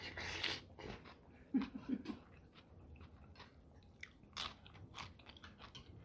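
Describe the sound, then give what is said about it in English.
A crunchy piece of food is broken off and bitten while eating pozole with lime: faint crisp crunches, then a few soft chewing sounds and quiet breathing. “I'm gonna go for my first taste. Break a piece off.”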